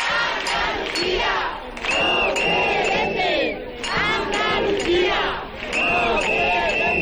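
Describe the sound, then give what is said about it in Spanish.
Crowd chanting in unison at a street march for housing rights, loud rhythmic bursts of many voices rising and falling, with shrill whistle blasts cutting through at moments. “Estos son algunos de los sonidos que ha dejado la manifestación convocada por el colectivo Jerez por la Vivienda.”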